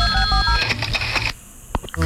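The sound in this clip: A telephone rings with a short electronic warbling tone that cuts off partway through, followed by a few sharp clicks as the line is picked up.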